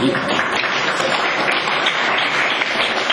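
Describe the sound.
Audience applause, a dense and steady wash of many hands clapping at an even loudness for a few seconds, with no talk over it.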